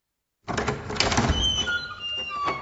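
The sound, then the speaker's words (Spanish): An old, sturdy wooden café door is pushed open, ringing a small bird-shaped bell hung above it: a sudden burst of noise, then thin, high ringing tones that linger and waver over the remaining couple of seconds. “Él empujó la puerta, haciendo sonar una campana con forma de pajarito que estaba colgada arriba.”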